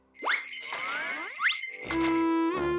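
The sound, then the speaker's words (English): Foot bells jingling as small characters step along the ground: bright tinkling and chiming with quick upward pitch sweeps, then a sustained ringing tone. “I made foot bells for all of us.”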